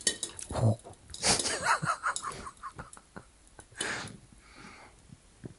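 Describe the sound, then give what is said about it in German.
A lid comes off a cooking pot in a kitchen with faint metallic clinks and clatter, a few soft knocks and some quiet rustling. “Und wenn ich jetzt den Deckel runternehme. Dann kommt es uns das, glaube ich, entgegen, oder?”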